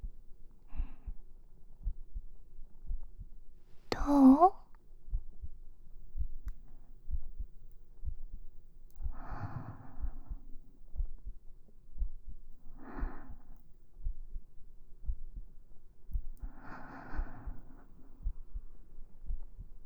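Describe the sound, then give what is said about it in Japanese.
A heartbeat, heard as if listening to someone's heart, pulses as low, gentle thumps at a steady pace. Several soft breathy swells rise over the beat at intervals. “君の心臓の音が聞こえるね。ドクン、ドクンって優しく響いてる。”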